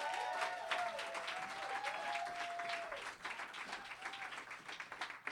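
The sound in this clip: An audience at the M Bar in Hollywood applauds to welcome a storyteller: steady, even clapping from a crowd that dips briefly in the middle before carrying on.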